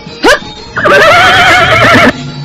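A horse neighing, a brief high squeal followed by a long, loud whinny with a wavering, shaky pitch that cuts off abruptly.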